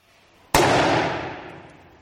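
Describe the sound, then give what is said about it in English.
A 2-litre plastic lemonade bottle bursts from liquid nitrogen pressure in one sudden, very loud bang, its roar decaying gradually over the following second and a half. “That really went off like a bomb. Yes, it pretty much did. There was no actual chemical explosion. All that happened was the pressure built up and up and up until eventually the bottle”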